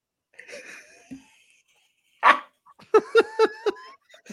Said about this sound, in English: Hi, doggy. Hi, doggy.